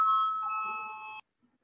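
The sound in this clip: An electric bell in a parliamentary chamber calls members to a vote, ringing as one steady, bright tone for just over a second before it cuts off abruptly into silence.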